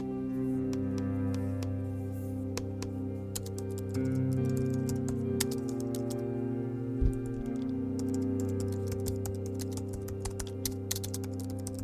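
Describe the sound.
Computer keyboard typing while a story is written: many quick, irregular clicks, fairly faint, running steadily over a constant low drone, with no talk.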